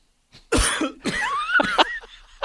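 A man in a studio coughs hard, as if choking, in a few loud, harsh bursts spread over about two seconds, with a brief strained, squeaky wheeze between them.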